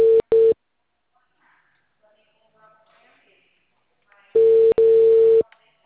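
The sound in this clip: Telephone line tone heard while placing a call: two short, steady tone pulses at the start, a long silence, then a longer tone broken by a brief gap.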